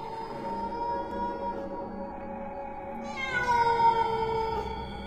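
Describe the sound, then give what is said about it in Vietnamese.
A cat lets out one drawn-out, wavering meow in the darkness, fairly faint. A soft, sustained tonal background runs underneath and before it. “Huấn đang cau mày nhìn trong bóng tối thì tiếng của con mèo kêu lên”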